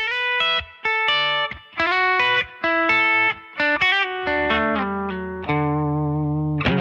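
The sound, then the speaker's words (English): A Telecaster electric guitar played on its bridge pickup gives a bright, biting twang. A choppy riff of short, staccato plucked notes and chords leads into longer sustained notes that ring out at the end. “And then here's the bridge pickup, a famous sound on the Telecaster, kind of the Dracula of guitar sounds. It is famously bitey.”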